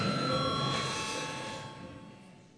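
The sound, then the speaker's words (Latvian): Electric bell ringing in the Latvian parliament chamber to call members to a vote: a steady, buzzing ring with sustained tones that holds throughout and slowly fades over about two and a half seconds. “Lūdzu zvanu.”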